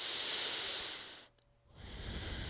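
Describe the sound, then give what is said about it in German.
Deep, slow breaths taken during a guided relaxation exercise. A long, airy, hissing breath fades into a short quiet pause, then a second soft, breathy stream of air follows. “Dann nimm ein, zwei tiefere Atemzüge.”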